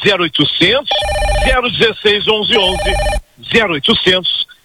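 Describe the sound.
Telephones ring on order lines for a product kit in two electronic trilling bursts, bright and repetitive, beneath continuous animated talk.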